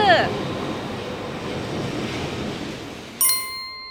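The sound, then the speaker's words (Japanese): A Shinkansen bullet train pulls into the station with a steady broad rushing roar that eases off near the end, followed by a bright, ringing chime. “と言ってる間に新幹線が来ましたね”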